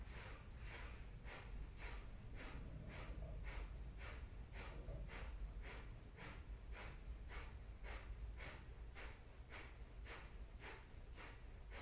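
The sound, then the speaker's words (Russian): Kapalabhati yoga breathing, with rapid, forceful exhalations pushed from the belly: many short, sharp snorting puffs through the nose in a steady, even rhythm, quiet and with no talking. “Просто у вас вот как в животе такая машинка работает, которая капалабхати производит.”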